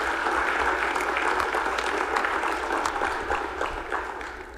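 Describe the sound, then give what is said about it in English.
Applause fills the Missouri Senate chamber for a retiring police officer honored for 30 years with the St. Louis Police Department. The clapping is dense, steady and sustained throughout, tapering a little at the very end. “Let's give him a round of applause for his 30-year commitment in serving with the St. Louis Police Department.”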